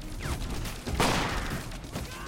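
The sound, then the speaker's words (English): Gunfire in a shootout around a van: a dense, loud burst of shots blending into one continuous noisy roar, with a sharp peak midway and no clear gaps between reports. “Carol shoots a Korean on the van roof.”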